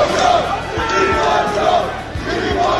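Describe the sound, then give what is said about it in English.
Thousands of college students at the University of Mississippi cheering and chanting, a loud, continuous crowd roar that holds steady throughout. “That was what it sounded like yesterday at the University of Mississippi, where thousands of college students turned out and literally”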